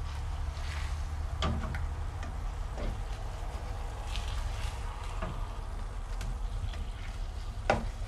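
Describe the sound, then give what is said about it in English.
Burgers fry in a pan over medium-low heat with a steady, soft sizzle, broken by a few brief sharp scrapes and taps as the patties are flipped. “Just flipping the burgers, guys. I like to keep the heat on medium-low.”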